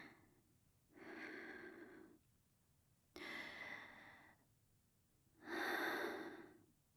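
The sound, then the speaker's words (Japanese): Deep, slow breaths taken to calm nerves: three long, quiet, airy breaths, each a second or more, separated by short pauses, with no talking. “深呼吸、深呼吸。”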